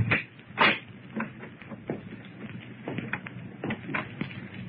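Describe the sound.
A door being opened, with faint, soft clicks and knocks of handling and the latch scattered over a low, muffled rustle.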